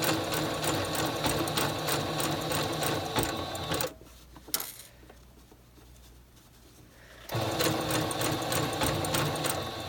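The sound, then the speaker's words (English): A sewing machine stitches a blind hem, the needle running down the seam allowance and catching the fold every few stitches. A fast, steady mechanical patter runs, pauses into near quiet with a single click, then resumes at full pace. “needle is going just down this side piece here, this little seam allowance, and then every few stitches it's going over and catching the fold, and that's what's creating the hem.”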